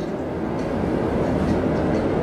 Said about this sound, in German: Ein Personenzug? Nein, das ist der Express. Ich dachte, weil er so langsam fährt.